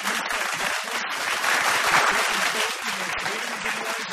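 Applause from a TV comedy show audience as a second runner-up is announced, dense and steady clapping that swells slightly in the middle and holds for about four seconds.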